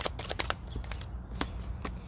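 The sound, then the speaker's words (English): Tarot cards are shuffled in a rapid, faint run of papery flicks and riffles that continue through the whole clip. “Let's get you two cards from your ancestors from the Classic Tarot”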